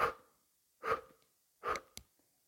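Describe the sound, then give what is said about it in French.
Three forceful exhalations through the mouth come in an evenly spaced series during a breathing exercise with the arms striking the flanks. Each is a short, breathy whoosh, with a faint sharp click after the last. “vous allez expirer en 3 fois de suite en venant frapper l'intérieur du bras contre les flancs. Et on expirera par la bouche de cette façon.”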